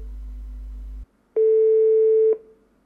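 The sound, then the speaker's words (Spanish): Telephone call signal on a line to a house: a low buzzing tone for about a second, a short silence, then one steady higher beep of similar length. Both tones are loud, with no voices. “Al final terminé buscando el número en la guía y lo llamé a la casa.”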